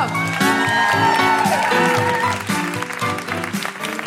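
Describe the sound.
Audience cheering and applause at a live Edinburgh Fringe show as three performers are welcomed on stage, loud clapping and cheers mixed with prominent musical tones throughout.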